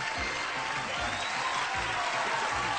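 Studio audience applause welcoming the host of the game show Super Password: a dense, steady wash of clapping that holds an even level from start to finish.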